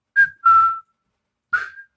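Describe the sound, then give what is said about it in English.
Whistling drifts over a night of fireworks as three clear, steady mid-pitched tones, the second the longest, with near silence between them. “I can hear a faint whistling in the distance.”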